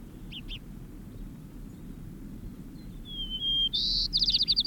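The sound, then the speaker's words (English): White-crowned sparrow song: two faint chirps, then a thin clear whistle that runs into a louder, rapid buzzy trill at the end, over a steady low background rumble. “White Crown Sparrow, eh?”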